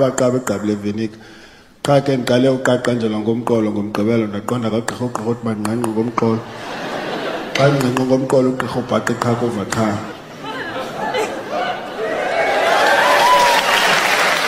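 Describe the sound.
Audience applause at a stand-up comedy set by a South African comedian, breaking out after a man speaks at length, then swelling into a loud, steady wash of clapping over the last few seconds.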